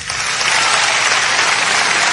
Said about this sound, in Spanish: Dale un aplauso a Dios.